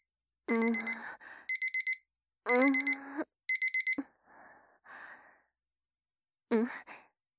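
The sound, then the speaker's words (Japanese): An alarm clock rings after a nap, sounding short bursts of rapid, bright beeps in a repeating pattern, mixed with sighing, groaning vocal sounds between the bursts. “私は少し仮眠しておきますか。アラームセットしておいてっと。”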